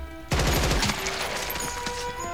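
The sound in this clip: Gunfire aimed at a giant bug in a science-fiction battle: a sudden, loud burst of rapid automatic shots that starts abruptly and carries on as a dense, roaring rattle.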